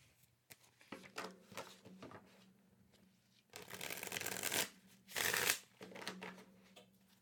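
Tarot cards being shuffled, a deck of cards riffled by hand in a series of papery bursts: several short, softer shuffles at first, then two long, loud riffles toward the end, with no talking.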